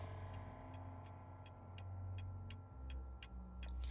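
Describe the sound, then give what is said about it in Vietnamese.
A clock ticks in a room, its hands producing a steady run of sharp, evenly spaced ticks, roughly three per second, over a low continuous hum. “tiếng kim đồng hồ vang lên tích tắc trong căn phòng”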